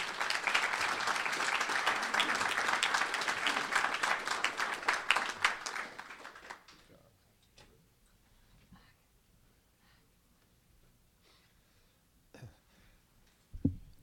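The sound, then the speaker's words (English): Applause from an audience welcoming an ambassador before his talk on the Korean Peninsula, a dense burst of clapping that lasts about six seconds, then fades into near quiet with a few faint scattered noises. “So let's give a warm welcome to Ambassador Gregg.”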